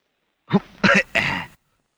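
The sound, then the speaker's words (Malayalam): Three rough, throaty coughs come in quick succession, loud and alone with no talk. The last cough is the longest. “ഓ എന്താ ഒരു കണിയാന്റെ ചുമ?”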